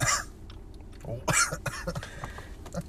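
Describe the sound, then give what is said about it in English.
A few rough coughs on a winter day: a short burst at the start and a stronger one just past the middle, with small throat and mouth noises between them. “you gotta realize it's winter nowadays. No, people are gonna be coughing.”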